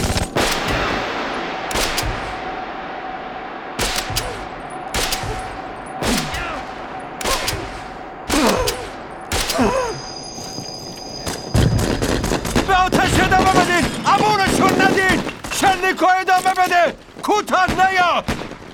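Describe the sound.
Heavy gunfire rings out in a battle: rapid machine-gun bursts and loud single shots crack repeatedly. Shouting voices join in the later half amid continued bursts of fire.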